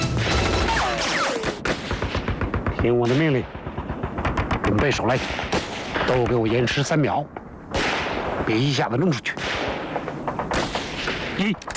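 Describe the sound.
Heavy machine gun company opening fire on Japanese troops in a mountain battle, with sustained rapid bursts of gunfire throughout and shouting voices heard over the din.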